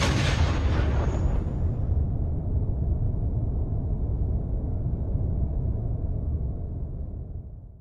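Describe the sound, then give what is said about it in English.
A starship jumping into hyperspace: a loud, sustained roaring blast with a bright hiss at the outset, settling into a deep, steady rumble that slowly dies away at the end, with no voices. “The Leviathan blasts into hyperspace with all Sith fighters accounted for.”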